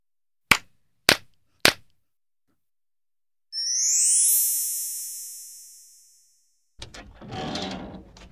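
Three sharp, evenly spaced hand claps ring out alone, followed by a bright sustained chime tone and then a short burst of rustling noise.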